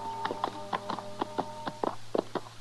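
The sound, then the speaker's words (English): Horses' hooves clip-clopping as riders approach a ranch: many sharp, hollow knocks in a steady, uneven rhythm over a low, constant hum. “Chester and I rode up to see if Andy was still on the ranch”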